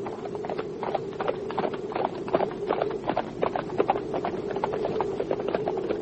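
Horses' hooves clip-clopping as riders set off, a continuous rhythmic patter of many hoofbeats at a steady pace, fairly loud throughout.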